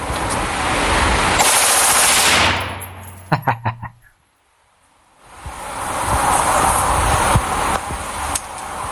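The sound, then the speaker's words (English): An assault rifle fires on full auto in one short, rapid burst of several sharp, loud shots. Broad rushing noise runs before the burst, drops to near silence after it, then swells back. “Now watch this. I go all the way to full auto.”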